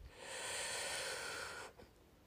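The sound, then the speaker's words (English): A single deep breath drawn in, heard as a long, soft airy hiss that swells quickly, holds steady for about a second and a half, then cuts off. There is no talking. “I'd love to end this episode with a nice deep breath in”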